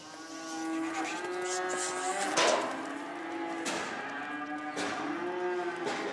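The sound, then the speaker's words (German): Young cattle moo while being driven onto a transport trailer, giving a few long, low, overlapping calls over a steady background rumble. “Heute hilft sie zum Beispiel ihren Mitarbeitern dabei, Jungtiere auf einen Transporthänger zu treiben. Die bringen wir jetzt hoch in den nächsten Stall und da kommen die auf die Wiese.”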